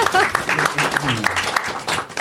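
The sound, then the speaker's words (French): An audience claps in a short burst of applause while a voice keeps talking over the clapping. “Un applaudissement. Attendez ça un peu.”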